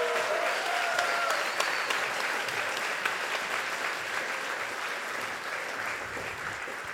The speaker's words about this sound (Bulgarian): Дайте ни аплодисменти за нея!